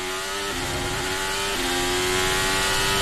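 Formula One race cars running on a track, producing a loud, sustained high engine whine with a steady tone and two small, abrupt drops in pitch.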